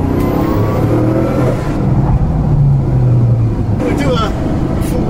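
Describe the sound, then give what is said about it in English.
A sports car engine drones as the car sheds speed under hard braking with its air brake deployed. The engine note sits under people talking throughout. “it really drags the speed off, and a lot of that is the air brake, to be honest.”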